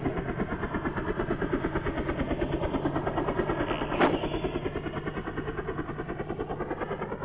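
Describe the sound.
A helicopter engine running with a rapid, even, rhythmic throb over a rough mechanical drone, steady in level throughout.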